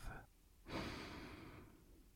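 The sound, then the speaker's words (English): A deep breath, soft and airy, swells after a short pause and then eases off slowly over more than a second, faint and unaccompanied. “Let's take a deep breath.”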